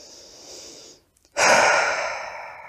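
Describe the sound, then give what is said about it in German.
Deep breath taken at the close of a meditation: a soft, airy inhale, a short pause, then a louder, fuller exhale that slowly tapers away. “Und nun atme ein letztes Mal tief ein und aus.”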